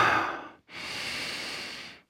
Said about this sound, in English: Just let your arms be an outlet and breathe with me.